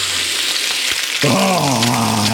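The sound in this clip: Bacon frying in a pan with a loud, continuous crackling sizzle that holds steady throughout, with no talk.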